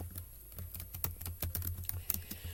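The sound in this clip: Typing on a computer keyboard: a rapid, irregular run of many light key clicks, a few striking sharper than the rest, with no talking.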